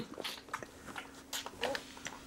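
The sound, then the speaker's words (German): A young predatory animal greedily drinking milk, with faint, wet lapping and slurping in irregular short bursts over a couple of seconds. “Langsam verschluckst du dich wieder. Ganz langsam. Ja, nuff, nuff. Keiner nimmt dir das weg.”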